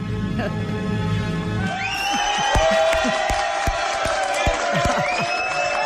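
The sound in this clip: A live studio audience cheers during a karaoke segment, a loud mass of whoops and shouts with high sustained cries rising over the din.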